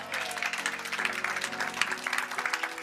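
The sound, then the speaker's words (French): An audience claps for the Lord, with a steady, rhythmic patter of hands over a held musical tone. “Est-ce qu'on peut acclamer le Seigneur pour Paul?”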